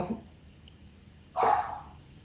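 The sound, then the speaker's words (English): A dog locked away as far as possible gives a single short, muffled bark over faint background noise. “we've had to lock the dogs as far away as possible lately because they've been so rambunctious with the change of the season. And I apologize for that.”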